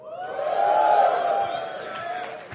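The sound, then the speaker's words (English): Audience cheering at a talk after a show of hands for Firefox users: sustained, rising whoops from many voices merge into a steady, tonal crowd roar that swells and then eases slightly. “For all those people that cheered, you should be ashamed of yourselves because you should know better.”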